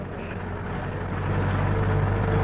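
A vehicle arrives, its low, steady engine rumble growing gradually louder over a couple of seconds, with no voices.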